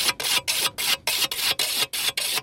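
The edge of a scythe blade is sharpened by hand while cutting wild hay on slopes above Lake Brienz, in a brisk, even rhythm of many bright rasping swipes, each following quickly on the last.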